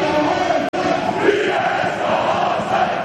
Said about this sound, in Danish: Masser af blæs på melodien her fra AC Horsens tilskuere